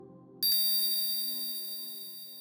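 A hypnosis bell gives a single clear, bright ding that rings on and slowly fades for about two seconds, fairly quiet over a faint low hum.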